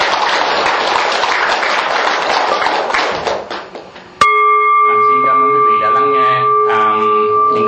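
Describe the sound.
An audience applauds at the end of a talk with dense, steady clapping that thins and fades, then a sudden struck bell-like ringing begins and sustains loudly.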